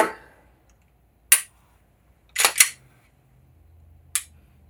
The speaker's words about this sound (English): Again, no manual safety. I'm going to dry fire it.